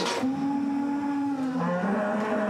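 Cattle bellowing, agitated by an unfamiliar situation: long, sustained low moos that overlap, one drawn-out call giving way to another at a slightly different pitch, loud and continuous throughout.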